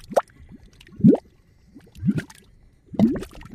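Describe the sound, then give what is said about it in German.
Thick, gloopy plops from mud volcanoes as hot gases force up through grey-brown mud; four deep bursts about a second apart, each sweeping upward in pitch, with quiet gurgling between them. “Es brodelt gewaltig an der Erdoberfläche. Was man hier hört, sind Schlammvulkane. Aus ihren Löchern dringen heiße Gase aus den Tiefen der Erde nach oben.”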